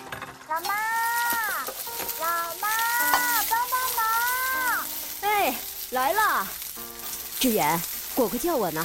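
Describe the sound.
Food stir-frying in a wok, with the wok being tossed, gives a steady, bright sizzle that runs throughout, beneath voices of people talking.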